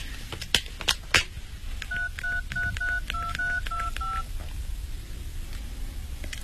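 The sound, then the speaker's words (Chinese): Someone dials a telephone, calling a friend's mother. A few soft clicks come first, then a quick, even run of many bright dual-tone keypad beeps, with a quiet room hum underneath. “你们等等吧，我打电话给他妈妈问问。”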